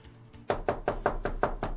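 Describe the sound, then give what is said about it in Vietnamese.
Someone raps on a door in a steady, evenly spaced series of firm knocks against a quiet background. “Lúc này thì có người gõ cửa.”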